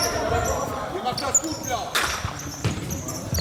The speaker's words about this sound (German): Man spürt es auch direkt, wenn man den Futsalball in der Hand hat. Also wenn man den einfach fallen lässt, da ist ein anderer Klang und er ist sofort tot.